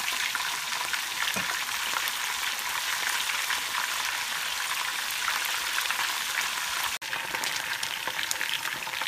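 Thin strips of food fry in a pan with a dense, steady sizzle and scattered crackles and pops. The sizzle breaks off for a moment near the end, and no one speaks.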